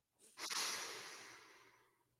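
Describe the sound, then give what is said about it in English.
A single long, deep breath in, taken during a guided breathing exercise: a steady airy rush that swells quickly and then fades slowly over about two seconds, heard alone without talk. “Take a deep breath in.”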